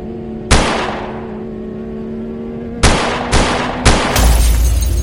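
Gunfire: four loud, sharp bangs over a steady low hum. One comes early, three follow in quick succession later, and a burst of rough noise runs to the end.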